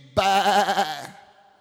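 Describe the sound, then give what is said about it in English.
A single sheep bleat, a loud, quavering, nasal cry with a steady wobble in pitch, lasts just under a second and then fades out. “He said, "What is this I hear?" He said, "The bleating of sheep. These sheep,”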